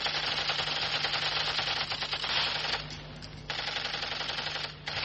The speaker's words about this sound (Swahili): anaitumia bunduki yake ya kuchezea aina ya Kalashnikov kupiga baadhi ya vitu